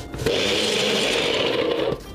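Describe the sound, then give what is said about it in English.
A blender runs in one steady, loud whirring burst of about a second and a half, starting and stopping abruptly, with no voices over it. “We're gonna use the blender, okay?”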